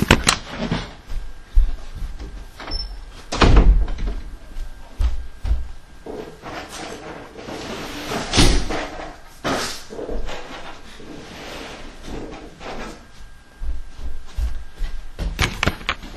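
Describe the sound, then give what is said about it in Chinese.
A door is shut, giving a few dull thuds and knocks amid rustling and handling noise, with quieter gaps between the louder impacts. “好，等一下我把门关一下。”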